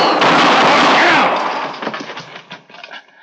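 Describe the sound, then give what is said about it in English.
A gunshot in an Old West ambush cracks out as a loud, harsh blast that rolls off over a second or two, leaving faint scattered crackles as it dies away. “Where are they? Where did they shoot from?”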